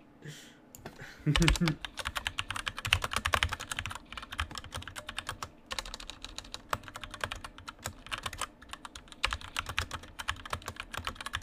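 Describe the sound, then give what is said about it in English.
Rapid keystrokes on a computer keyboard as someone types into a text file, many uneven clicks running steadily for about eleven seconds with brief pauses between bursts. “Hang on. Gotta type.”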